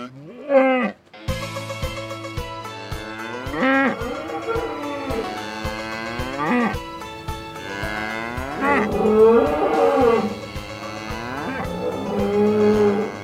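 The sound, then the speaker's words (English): Cattle mooing at a rodeo, several drawn-out bellows with wavering, rising and falling pitch, some overlapping one another, over a steady background hum with faint clicks. “Those sounds were recorded at the Grand National Rodeo held at the Cow Palace.”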